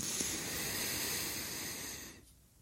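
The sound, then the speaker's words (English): A deep inhale through the nose during a guided belly-breathing exercise, a steady hissing rush of air lasting about two seconds before stopping abruptly. “So we're going to take a big deep breath in through our nose and put it all in our belly and stick our bellies out as far as possible. Okay, everybody, breathe in with me.”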